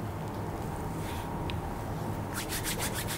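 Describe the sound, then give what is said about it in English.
Hands rubbed briskly together to build warmth during a guided eye-relaxation exercise: a faint, steady hiss gives way near the end to a quick run of rhythmic, dry swishing strokes. “Open your eyes, rub your hands, feel that heat, and put it on your eyes.”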